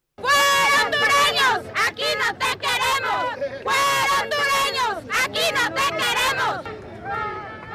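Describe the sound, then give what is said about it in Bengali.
Central American migrants at the US-Mexico border chant slogans in unison, loud rhythmic bursts of many voices rising and breaking off in short phrases, then starting again. “বিপন্ন বিপর্যস্ত অভিবাসীরা নানান দাবিতে slogan দিচ্ছে, স্লোগানে তাদের কথা বলছেন।”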